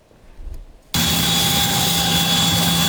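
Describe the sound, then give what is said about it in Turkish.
An ambulance aircraft engine roars while flying a pregnant patient from Northern Cyprus to Turkey. A steady, loud roar with a constant high whine starts abruptly after a quieter second and holds evenly to the end. “8 aylık hamile bir kadın ambulans uçakla Kuzey Kıbrıs Türk Cumhuriyeti'nden Türkiye'ye getirildi.”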